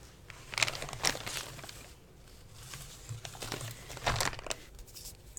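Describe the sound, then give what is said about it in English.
Paper crinkling and tearing as a greeting card is unwrapped and opened, with many irregular rustling bursts rising and falling in loudness and brief pauses between them; no one talks. “Yeah, I know it's a card, but you want to open it and read what's inside?”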